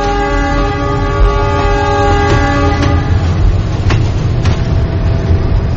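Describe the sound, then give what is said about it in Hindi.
Train arriving at a station platform, a steady heavy rumble with a sustained horn tone through the first half and a few sharp metallic clicks, loud throughout. “Platform पर train आ गई है।”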